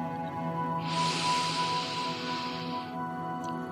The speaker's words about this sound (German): komm erstmal hier an, indem du drei ganz tiefe Atemzüge nimmst mit mir.